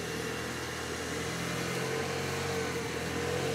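Car engine running during a short test drive gives a steady, fairly loud drone with low humming tones and a broad rushing layer. The level stays even throughout, with no talk.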